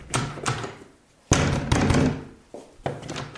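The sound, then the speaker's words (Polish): A bathroom door with a jammed lock rattles and bangs. Several hard thuds and clattering jolts come in uneven bursts, and one forceful shake is louder than the rest. “No zamek się zaciął. Ja pierniczę.”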